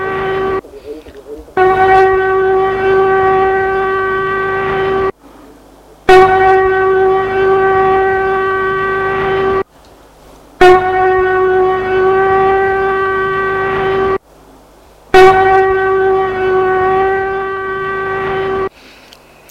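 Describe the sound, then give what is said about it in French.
A siren sounds loud and steady, a droning, harmonic-rich tone sounding in four long blasts of about three and a half seconds each, separated by short pauses, after a brief opening burst. “une sirène a retenti. Une sirène a retenti.”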